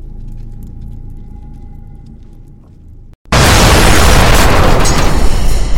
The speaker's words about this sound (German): Treffer, zweites Geschütz ausgeschaltet, einzelne Soldaten gesichtet.